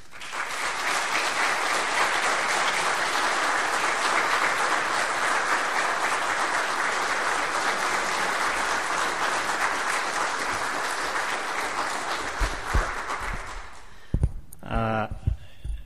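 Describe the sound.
Loud audience applause welcomes the 2011 Emerson Award recipient, a civic-minded doctor. It sustains steadily for about fourteen seconds, then fades as a voice begins speaking.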